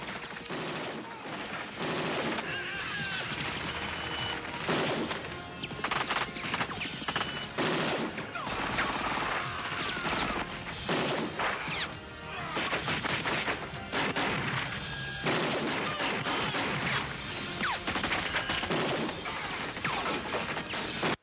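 Gunfire from several guns in a film scene: dense, continuous volleys of shots mixed with crashes and impacts, loud and sustained for about twenty seconds.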